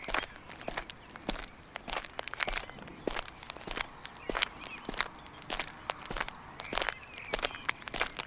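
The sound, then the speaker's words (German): Faint footsteps walk along a path beside a reed bed, each step a short crisp tap in an even, unhurried rhythm that continues throughout with no talking. “Wir laufen noch ein Stück auf dem Mühlfeller Maschweg weiter, bis auf der rechten Seite des Weges das Storchenschild auftaucht.”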